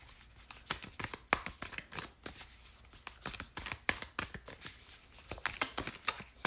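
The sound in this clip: Oracle cards being shuffled by hand: many quick, crisp riffling slaps and papery clicks in an uneven, continuous rhythm, fairly soft and alone.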